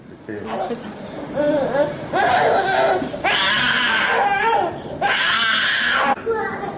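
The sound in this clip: A one-year-old baby cries during hemodialysis in a hospital, with loud, sustained wailing that rises in repeated strained bursts and short breaks between them.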